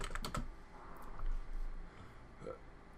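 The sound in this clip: Keystrokes on a computer keyboard while someone types into a gaming website: a few quick clicks near the start, then softer, scattered taps over a low, steady background.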